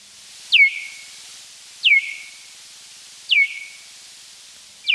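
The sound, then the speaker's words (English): Bat echolocation calls, recorded, slowed down and lowered in pitch about twentyfold, heard as four evenly spaced, short, downward-sweeping chirps, each dropping quickly and trailing into a brief tone, alone against a faint hiss. “So we actually have some sound of bats echolocating. Now, as you just said, this is not normally something that human beings can hear unaided, but through recording and then slowing down the echolocation sounds and lowering the pitch by some 20 times, it does sound like this.”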